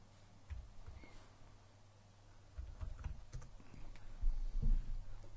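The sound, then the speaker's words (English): Typing a web address on a computer keyboard: faint, scattered keystroke clicks in a few short bursts over a low, steady hum. “I'm going to type in an address.”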